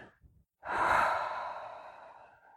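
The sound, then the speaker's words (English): A single deep exhale: a long, breathy rush of air that begins abruptly at full strength and then slowly fades over about two seconds, after a brief faint breath sound. No voices. “It's an exhale.”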